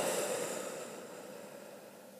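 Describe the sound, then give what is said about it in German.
A long breath out through the mouth after an inhale through the nose, heard as a steady soft hiss that slowly fades over a couple of seconds, alone without talk. “Durch die Nase ein und durch den Mund wieder aus.”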